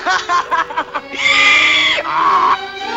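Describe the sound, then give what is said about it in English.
A boy's laughter turns into a donkey-like bray: a few short, choppy laugh bursts, then two long, loud, harmonic braying cries. “Hey, you laugh like a donkey.”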